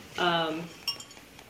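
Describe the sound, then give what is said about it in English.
Cocktail glasses clink together in a toast, one sharp, bright ring just after a brief voice, followed by a couple of faint ticks. “cheers to your beautiful cocktail”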